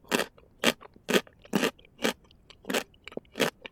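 Crunchy Japanese pickles being chewed, with a steady run of crisp, loud crunching bites at an even pace, each a short rough burst. No talk is heard.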